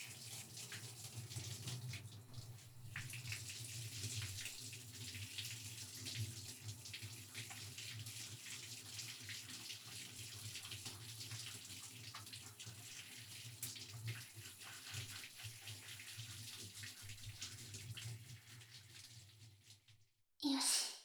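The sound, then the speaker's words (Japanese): Warm water rinses hair in a steady, soft rushing hiss that runs unbroken for about twenty seconds, then cuts off with a brief louder sound at the very end. “じゃあ、今から頭洗っていくね。まずは、お湯で軽く汚れを落としていくから、熱かったら教えてね。”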